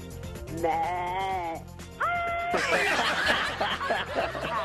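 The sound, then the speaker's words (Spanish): A human voice imitates a sheep, producing two wavering, nasal bleats in succession, followed by chuckling laughter. “¿Cómo le hacen los borregos tú, criatura?”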